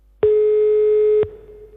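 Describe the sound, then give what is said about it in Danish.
A telephone tone sounds while a call is placed to a mayor: one steady, loud, mid-pitched tone lasting about a second, then cutting off into quiet line noise. “Vi sætter os for at prøve og ringe til borgmesteren.”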